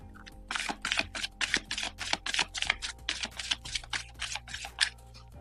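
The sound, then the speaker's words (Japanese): Shuffling a deck of cards for a spiritual card reading: a rapid run of many short, crisp riffling bursts in an uneven rhythm, fairly loud over a faint steady hum, with no talk. “カードをシャッフルいたします。少々お待ちください。”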